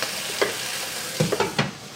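Sizzling of duck frying in a pan with water, a few sharp spitting bursts rising over a steady background hiss, with no voices.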